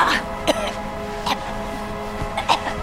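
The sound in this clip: A woman pretends to choke heavily, struggling with a few sharp, strained gasping and coughing bursts over a constant rough background noise.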